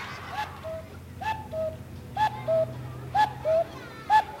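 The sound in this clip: A human voice imitates an owl call with a series of short, whistled hoots, mostly in pairs, each a clear mid-pitched tone, repeated with short gaps over a low background hum.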